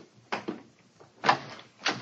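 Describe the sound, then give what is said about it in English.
A door is tried and opened: a few short, sharp clunks and rattles, spaced unevenly with quiet gaps between them. “Come on, let's try this door.”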